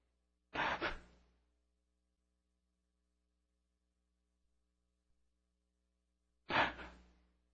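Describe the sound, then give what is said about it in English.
A man's voice imitates the very slow breathing of a dying man: two breathy gasps, each about a second long, with a long silence of several seconds between them. “His breath was coming so slow. You wouldn't believe it, just kind of like this.”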